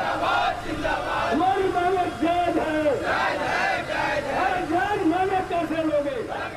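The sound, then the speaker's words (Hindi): Striking workers chant slogans during a Bharat Bandh nationwide strike in India against labour-law changes and privatisation. Loud, rhythmic crowd voices repeat the same phrases over and over. “जगह जगह मजदूरों ने नारे भी लगाए।”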